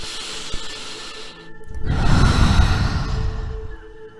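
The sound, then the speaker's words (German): A deep breath in and out during guided meditation, a slow airy rush that swells to a loud, broad whoosh and fades gently over a couple of seconds. “Und wenn du bereit bist, kannst du einen tiefen Atemzug nehmen.”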